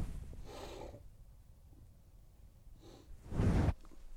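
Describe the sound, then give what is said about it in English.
A hand covers a microphone, producing two soft, muffled bursts of broad rustling noise. The second burst is louder and separated from the first by a quiet stretch. “that sound is me covering the microphone so you don't have to hear me sneezing and stuff”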